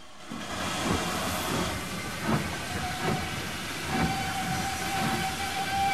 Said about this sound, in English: stands on the railway platform with the boy as a train draws into the station.